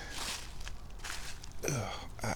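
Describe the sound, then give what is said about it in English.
Footsteps of someone walking, a few soft scuffing steps over a low background hum, with a voice speaking briefly near the end. “why am I walking this way? This is dumb.”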